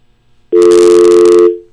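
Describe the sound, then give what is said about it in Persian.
A telephone busy tone after a dropped call plays as one steady, loud tone lasting about a second. It sounds alone and then fades out. “فکر کنم که تماس ما با آقای سعید زاده قطع شد.”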